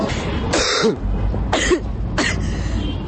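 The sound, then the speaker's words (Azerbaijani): Coughing and throat clearing from young protesters with mouths covered at a street demonstration for a tuberculosis-free future, three harsh bursts spaced about a second apart over steady background noise. “Bu öskürənlər isə vərəmlilər deyil, vərəmsiz gələcək uğrunda aksiya keçirən Dalğa Gənclər Hərəkatının üzvləridir.”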